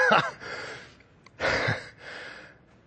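A man groans twice in low, breathy exhalations. The second groan is more drawn out and trails off into a softer breath.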